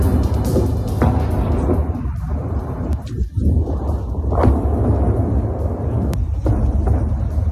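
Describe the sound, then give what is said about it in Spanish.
A bomb explosion in the Gaza Strip, heard as a loud, sustained roaring rumble with broad crackling noise that fills the whole stretch and never settles into quiet. “Israel se ha lanzado a atacar el norte y especialmente el sur de la franja con bombas como la que acabamos de escuchar”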